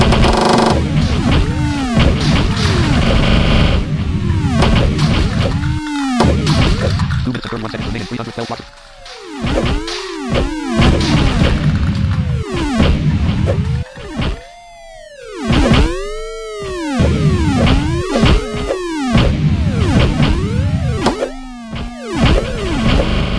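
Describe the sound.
Blocks being smashed in a video game: many bright, bouncy electronic tones rise and fall in quick succession. The busy, clattering run of game effects continues throughout, with a few short pauses.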